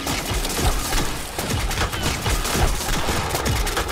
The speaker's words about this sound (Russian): Охотники стреляют.